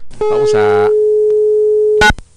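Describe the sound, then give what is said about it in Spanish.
A steady telephone line tone holds while a phone number is dialed. It is a loud, constant, even pitch, with a brief voice-like sound near the start and a short burst as the tone ends. “Ok, bueno, estamos haciendo la marcación en estos momentos.”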